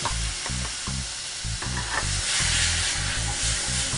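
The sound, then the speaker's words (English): Sizzling of chickpeas tipped into a hot pan of Indian spices: a steady frying hiss with a regular run of low scraping stir strokes throughout, no talk. “So I like Indian food because it's really simple. It's all about the spices. So now we're going to add in our chickpeas.”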